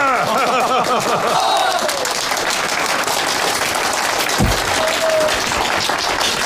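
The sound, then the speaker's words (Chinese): Applause from a group at a meeting, clapping to honour a comrade who has pledged to work for a peaceful takeover of a city. Dense, steady clapping fills the whole stretch at an even loudness, with voices briefly heard near the start. “鼓掌！”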